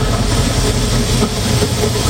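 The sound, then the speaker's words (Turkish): A tourist express train arriving at a city station on rails produces a steady, dense rumbling roar with a low engine hum throughout, without distinct clanks or horn blasts. “Raylara düşen tren sesi Zonguldak garında yankılandı.”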